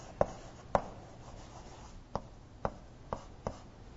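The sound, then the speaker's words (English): Writing on a board during a lesson: six sharp, faint scratchy strokes or taps at uneven intervals over a quiet background, with no talk. “what should I write down for term?”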